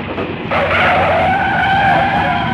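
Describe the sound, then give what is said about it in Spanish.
A coach skids and swerves on a road: broad road noise gives way to a loud, sustained tyre squeal that holds steady to the end. “El autocar, mientras el conductor intentaba volver a hacerse con el volante, trazó eses por la carretera, empujando a unos contra otros.”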